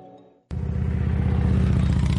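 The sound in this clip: A Harley-Davidson motorcycle engine bursts in after a brief near-silence, then holds a loud, steady, throbbing low rumble with a rapid pulsing beat.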